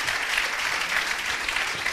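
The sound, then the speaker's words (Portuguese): Audience applause at an awards ceremony as a guest is called to the stage, a thick, even wash of clapping that holds at a steady loudness from start to finish. “Aqui vamos chamar o Alex Alva Teixeira, que está aqui na cerimónia. Uma salva de palmas para o Alex.”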